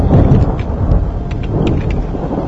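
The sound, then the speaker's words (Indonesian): Heavy rain and thunder outside a café: a dense, loud hiss of downpour is layered over a deep rolling rumble of thunder, continuous throughout with no voices. “Ah, hujan gede ini pasti.”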